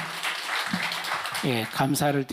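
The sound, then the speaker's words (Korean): Audience applause at a lecture event: a dense, steady wash of clapping that continues throughout, with a person talking over it in the second half. “크게 박수 한번 부탁드립시다.”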